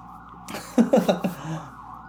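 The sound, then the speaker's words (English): Emergency sirens pass along a main street, a faint, steady wailing tone running through the whole stretch, with a brief cluster of louder, voice-like bursts in the middle. “I don't know if you can hear the sirens in the background.”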